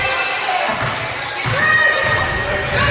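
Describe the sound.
A basketball is dribbled on a court during a girls' basketball game, with repeated bounces thumping at a steady pace under a commentator's talk and faint crowd noise.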